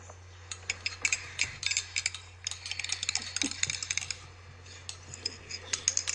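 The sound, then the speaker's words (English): Stirring a potato yeast and hydrogen peroxide mixture gives many quick, irregular clicks and light clinks in a steady run, with a constant low hum underneath. “You know, potato yeast can be a slow catalyst. Maybe it just needs a good stir.”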